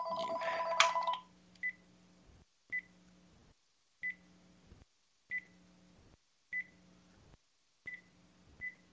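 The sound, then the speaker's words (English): A telephone rings electronically: a louder, busier tone burst at the start, then seven short, evenly spaced beeps at a steady pace, with no talking. “I just had a phone here and I just disconnected that phone.”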